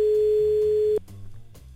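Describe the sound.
A telephone tone sounds while calling home: one steady, pure mid-pitched tone holds for about a second, then cuts off abruptly, leaving a faint low background hum.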